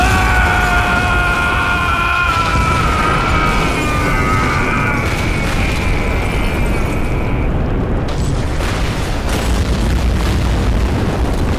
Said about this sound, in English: Pull the pin and let the fun begin! Grenade!